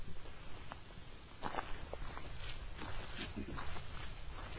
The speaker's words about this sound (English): By the way, just to paint the picture here, the two people who just passed us were not running. They're walking. They're just walking down the road.